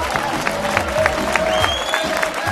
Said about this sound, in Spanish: ¡Aplauso!